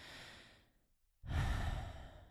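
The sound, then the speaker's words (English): A deep exhale comes at the release of tensed muscles during a guided relaxation exercise. A soft, airy breath is followed by a short pause, then a stronger, longer, breathy exhale that stays fairly quiet. “It's always a good exhale when we do that.”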